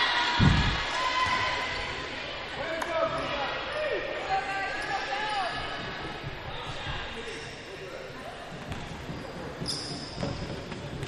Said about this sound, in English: Right-hand dribble at the free throw line.